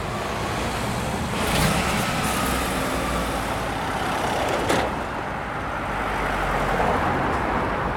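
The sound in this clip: Road vehicles passing by near a riverside fishing spot, heard as a steady low roar of traffic with a couple of brief louder swells as vehicles go past; no voices are present.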